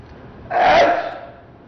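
A single sneeze from a sheikh, a sharp breathy burst that swells quickly and then tapers off over about half a second, heard alone against a quiet background.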